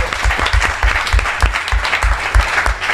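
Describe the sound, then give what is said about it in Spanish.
Loud applause for the finalists of a vintage-themed trivia quiz night: brisk, dense clapping that swells and dips slightly over three seconds, with no talk. “Un aplauso aquí para los finalistas.”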